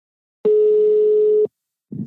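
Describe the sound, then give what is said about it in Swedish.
Telephone ringing tone while calling someone: one steady, even tone of about a second, then a pause and a short, low muffled rustle. “Så vi ringer till Lars Bäckstedt.”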